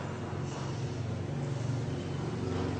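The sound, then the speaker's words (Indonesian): A generator runs during a power outage at a religious lecture, giving a steady, unbroken droning hum with a low rumbling core and a broad, noisy top. It stays constant throughout, with no distinct events. “PLN tetap mati, tapi generator dihidupinnya, ya.”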